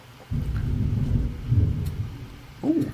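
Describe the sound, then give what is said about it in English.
A crack of thunder: a deep, low rumble rolling steadily for about two seconds, then a shorter, sharper rumbling burst near the end. “there was a crack of thunder and a bolt of lightning”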